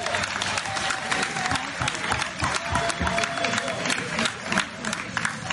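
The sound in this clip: An audience gives sustained applause, with dense continuous clapping at a steady loudness for several seconds. Crowd voices and some cheering mix in with the clapping.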